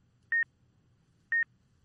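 A kitchen timer beeps twice, each a short, bright high-pitched tone about a second apart, over a faint low hum.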